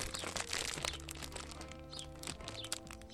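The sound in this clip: Crinkling of a yellow snack package as triangular spelt olive snacks are taken out, heard as faint, crackly rustles and crunchy crackles.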